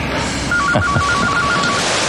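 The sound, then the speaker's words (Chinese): A telephone rings with a quick run of short, evenly pulsed mid-high electronic beeps over steady, loud background noise. “我接个电话。”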